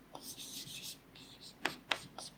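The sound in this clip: Hand writing produces faint, quick scratchy rubbing strokes that come in a rapid series, with a few sharper strokes near the end.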